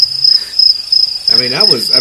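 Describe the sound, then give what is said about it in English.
Crickets chirp as a sound effect, a loud, steady, high-pitched trill of rapid pulses running unbroken through the whole clip. “Cricket. I'll give you cricket.”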